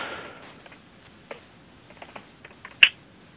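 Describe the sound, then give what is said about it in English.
Someone types on a computer keyboard in faint, sparse keystrokes at an uneven pace, with one sharper, louder click near the end. “I think it'll be faster if I type it and send it to the committee.”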